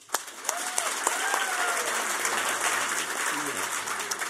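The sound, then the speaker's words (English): Audience applause welcoming a debater onstage at a debate event, many hands clapping in a full, even wash for about four seconds with a voice heard over it. “Ladies and gentlemen, please welcome Thea Lee.”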